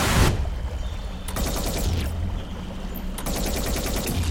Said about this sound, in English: What is he even shooting at?